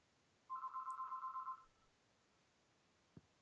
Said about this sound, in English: My phone just rang. Like the house one.